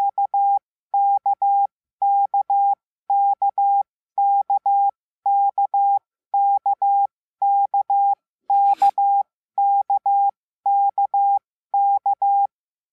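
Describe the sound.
Morse code tones sound at one steady, fairly high pitch in twelve evenly spaced groups of three short bursts, loud and alone. A single brief click breaks in near the end.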